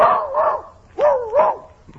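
A small dog gives quick, tonal yaps in two pairs separated by a short pause. Each bark is brief and slightly wavering in pitch, with no talk over them.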